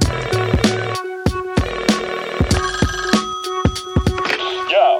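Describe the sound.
Telephone ringing on an outgoing call, a series of sharp, bell-like ringing bursts repeating in quick succession.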